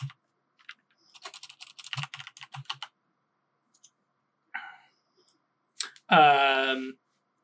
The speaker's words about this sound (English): I can type.